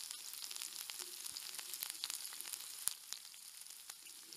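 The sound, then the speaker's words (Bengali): Bay leaf and dried chilli fry in hot, smoking mustard oil with a little sugar: a continuous crackling sizzle dotted with many sharp pops and spits, steady and alone without talk. “আহ বেশ ধোয়া উঠেছে সর্ষের তেল গরম হয়েছে দেখছি একটু চিনি দিয়ে দিই কালারটা বেশ লাল হবে তেজপাতা একটু ছিঁড়ে সাথে শুকনো লঙ্কার মাথাটা টেনে গরম তেলে ছেড়ে দিলাম”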